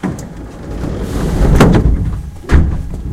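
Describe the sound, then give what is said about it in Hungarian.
Doors of a Hungarian train closing on the way to Keleti station: two heavy thuds over a steady, loud low rumble. “Kérem vigyázzanak, az ajtók záródnak.”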